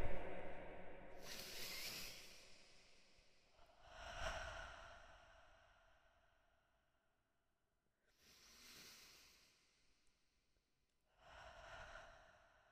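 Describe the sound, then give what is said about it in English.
Deep breaths drawn with an echo effect on the microphone, several long, breathy swells rising and fading with lingering reverberant tails, fairly faint, separated by quiet gaps. “Everyone do your three deep breaths. Ready? I'm gonna put the mic on echo so we can all do this together and it'd be really intense.”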